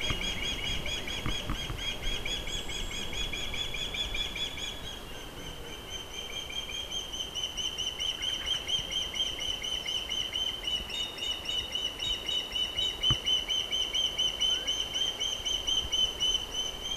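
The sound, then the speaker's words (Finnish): Nestling birds' begging calls at the nest: a continuous chorus of thin, high-pitched cheeping with a steady pulsing rhythm, fairly faint and unbroken throughout. “1000 kertoja olen pesällä käynyt ja tätä poikasten kerjuääntä kuunnellut.”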